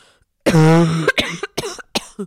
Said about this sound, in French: Vas-y, tousse un bon coup là pour dire au revoir. Je vous montre comment je tousse